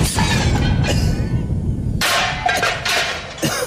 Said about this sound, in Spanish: ¡Granada! ¡Al suelo, Presi!